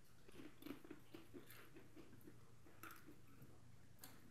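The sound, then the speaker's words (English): Chewing a dry snack cracker, heard as many soft, crisp crunches in a steady, rhythmic pattern, faint and with no talk over it. “So here's a little cracker. Here's the cracker. Oh, yeah. Holy crap. It does smell like cardboard. No. Here, are we going to eat it?”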